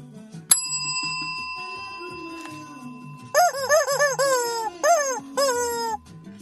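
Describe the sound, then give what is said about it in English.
A bright bell strikes once and rings on with a sustained tone. After a pause comes a chicken-like run of squawking calls in a few bursts, each sliding down in pitch. “You put those two sounds together. The nice sounding bell and chicken, and you've got yourself a Road Trek podcast”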